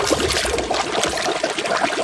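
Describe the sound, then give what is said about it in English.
Water pouring into a pot for boiling little potatoes, a steady splashing rush that lasts about two seconds with no other sound. “Grab bag of little potatoes from the pantry. Boil in water.”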